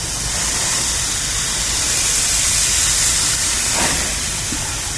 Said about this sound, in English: Yeah, good flame there.